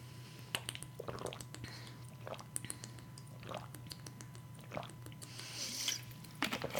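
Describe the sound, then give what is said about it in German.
A person takes a sip of a drink, making several soft, wet mouth and liquid sounds that are faint over a steady low hum. “Ich muss mal kurz einen Schluck trinken. Ich habe so viel durchgeredet, da hat meinem Rachen weh.”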